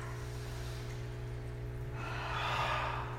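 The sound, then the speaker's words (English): A deep breath is drawn in through the nose and let out through the mouth during a guided breathing exercise, soft and airy over a steady low hum, the out-breath swelling louder toward the end. “Take a deep breath in through the nose and let it go through the mouth. Deep breath in, let it go. One more.”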